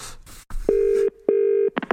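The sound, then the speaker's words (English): An incoming phone call rings as two loud, sustained electronic tone bursts of the same steady pitch, each just under half a second with a short gap between, followed by a few quick clicks. “Oh, we got another phone call.”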